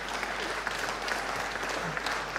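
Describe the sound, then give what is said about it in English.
Applause from an audience for a volunteer, a steady, dense wash of many hands clapping that holds evenly through the whole clip with no single voice standing out. “Can we have a round of applause for Samuel?”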